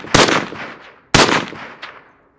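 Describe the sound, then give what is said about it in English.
Two gunshots ring out about a second apart, each a sharp, very loud crack followed by a long decaying tail, with a smaller burst trailing the second shot. “You shot him!”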